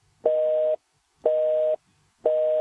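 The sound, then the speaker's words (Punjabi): Three evenly spaced electronic beeps of a phone line's disconnect tone after a call drops, each about half a second long and one second apart, steady in pitch with quiet gaps between them. “Disconnect ਹੋ ਗਿਆ ਜੀ।”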